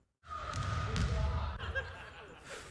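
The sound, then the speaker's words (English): A basketball bounces during a Steph Curry full court trick shot video: dull low thuds over a steady wash of background noise. “here's a trick shot video that from somebody that you may know, Steph Curry on the Golden State Warriors, greatest shooter of all time. He's about to nail some full court shots.”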